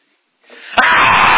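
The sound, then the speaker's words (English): A voice imitates the scream of a three- or four-year-old child throwing a tantrum. A breathy rising intake leads into one loud, harsh, sustained cry that cuts in suddenly. “When Sean didn't get his way, when he was at that age, he would scream.”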